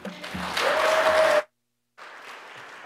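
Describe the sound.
Brief audience applause welcomes a speaker at a church gathering, a dense clatter of clapping lasting under two seconds that cuts off abruptly, then gives way to a quieter stretch of low background noise.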